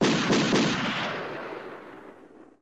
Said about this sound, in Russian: Прогремели выстрелы.